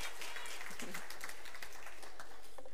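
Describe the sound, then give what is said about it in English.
A church audience applauds a young performer with a full, continuous wash of clapping, steady and unbroken from start to finish. “Thank you so much. Let's give it up for Nathan one more time.”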